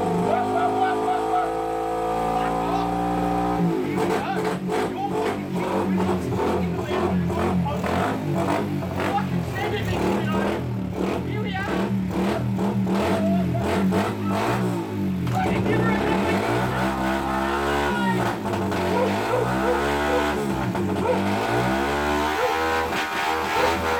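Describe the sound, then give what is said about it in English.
A vehicle engine revs hard while skidding inside a lounge room, roaring steadily and then surging up and down in repeated pitch sweeps, with people talking and shouting over it. “We're going to do a bloody skid in the lounge room for the podcast.”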